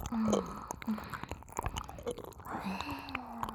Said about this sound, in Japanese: ねえもう一口チョコ食べときなよ。食べさせてあげるから。